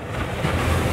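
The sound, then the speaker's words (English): Ocean waves, the kind whose energy can be turned into electricity, make a steady, dense rushing wash of broad noise that holds an even level throughout, with no voices. “This hardly sounds groundbreaking, does it? But it's the sound of wave energy that could power a multi-billion dollar blue economy.”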